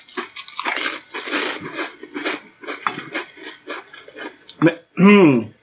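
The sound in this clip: Crunching of a bacon-flavoured chip being bitten and chewed: a run of many short, dry, crackly bursts that taper off, with a brief voiced murmur at the end.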